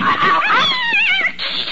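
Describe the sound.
A cat's long, drawn-out meow, high and wavering, its pitch climbing and trembling before tailing off, loud and alone.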